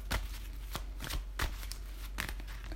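Tarot cards are shuffled for a new moon in Pisces reading, with several sharp, papery riffles and snaps coming in irregular bursts, with no talk.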